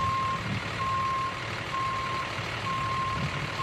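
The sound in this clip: Reversing beeps from a truck or tractor-trailer during parking practice on a street in the Bronx, New York: a steady run of evenly spaced high beeps over a constant low engine rumble.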